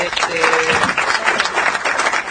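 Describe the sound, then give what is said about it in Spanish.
Crowd applause: dense, continuous clapping fills the whole clip at an even level, with a voice briefly audible over it near the start. “Necesitamos aplauso para Natalucci. Que la banquen.”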